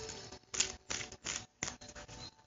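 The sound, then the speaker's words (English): Tarot cards are drawn and handled from a deck, giving a series of short, faint papery rustles and clicks in an uneven rhythm, separated by brief silences. “So I'm going to draw a couple of more cards to go with that eight of pentacles. So draw from my deck.”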